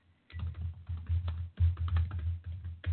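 Rapid typing on a computer keyboard gives many crisp keystroke clicks in two dense bursts, split by a brief pause midway, after a quiet start.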